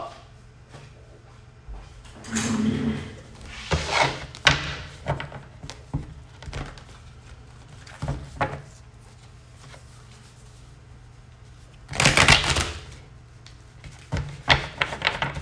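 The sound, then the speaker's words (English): Tarot cards being dropped: a few soft slaps and rustling shuffles against a quiet background, with a longer burst of rustling near the end. “Dropping cards”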